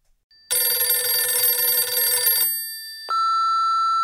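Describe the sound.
A telephone bell rings for an incoming call to a call-in line: one bright, buzzing ring lasting about two seconds, then a brief gap and a steady, higher electronic tone that holds to the end, with no voices.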